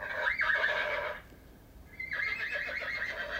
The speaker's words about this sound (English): Old MacDonald Had a Farm and pressing the picture of the horse. Old MacDonald had a farm, E-I-E-I-O, and on that farm he had a horse